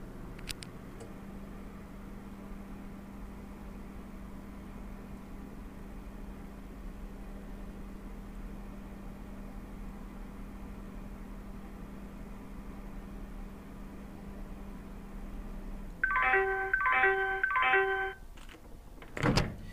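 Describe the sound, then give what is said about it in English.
A Talking Microwave Oven 2 defrosting ice cream gives off a faint, steady low hum, then stops with a few short bright beeps signalling it is done. “Okay, so that means that it's finished, and it gave that little ding sound to tell you that it's done. Okay, well, that'll wrap it up for this demonstration of the Talking Microwave Oven 2.”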